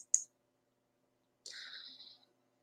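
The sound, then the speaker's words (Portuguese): A computer mouse click to start a Zoom meeting: one crisp, sharp click, then a short quiet gap before a brief higher-pitched tone. “Bem, para iniciar de fato a sala, eu preciso clicar nesse botão aqui, abrir Zoom Meetings, tá?”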